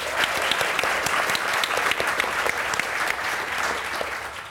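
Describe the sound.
Warm applause from an audience at the Science Gallery in Dublin welcoming guests, a dense, steady roar of many hands clapping without pause, fairly loud and unbroken throughout.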